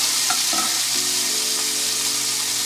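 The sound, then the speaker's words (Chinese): Diced wagyu beef stir-fries in a hot pan, with a continuous loud sizzle and a few stirring strokes through the hiss. “那因为它其实热蛮快的，快速的把它翻炒一下。”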